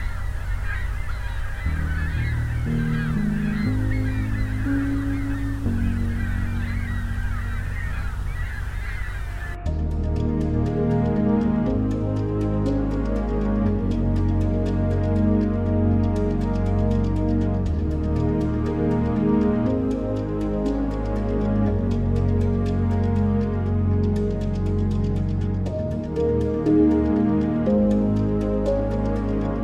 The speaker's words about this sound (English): It's got maybe 500-600 gulls. Pretty much all ring-billed, though I'm sure there's a herring or two in here.